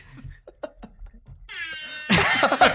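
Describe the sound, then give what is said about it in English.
A rap air horn sound effect plays from a phone app: a brassy, buzzing horn tone enters midway, then swells into a louder, harsher blast to the end, after a few short, scattered noises. “we need to get money from the Rap Air Horn app. And when I don't know when I downloaded this, I was probably drunk, but I'm glad I did.”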